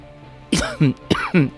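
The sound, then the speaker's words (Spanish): Two harsh human coughs, each a doubled burst with a voiced, throat-clearing tail, fairly loud and heard alone without talk. “Perdón, la tos que os decía.”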